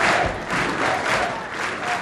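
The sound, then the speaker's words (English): Cheering and applause from a student audience greeting President Bush at a stop in Ohio: a dense, steady roar of clapping and shouting voices that swells and eases slightly over a couple of seconds. “Here, the president was greeted by an audience of students ready to show their support and their patriotism.”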